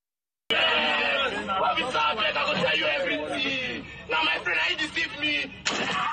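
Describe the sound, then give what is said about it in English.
Gunshots as a plain-clothes police officer fires at a young man in Delta State, southern Nigeria: a few sharp, loud bangs cutting through voices and talk. “This footage of a defenseless young man in Delta State, southern Nigeria, being shot at by a police officer in plain clothes went viral online a few weeks ago.”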